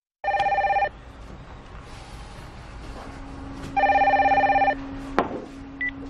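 A telephone rings in two bursts of bright electronic trilling separated by a pause of about three seconds, loud and alone, with no voices.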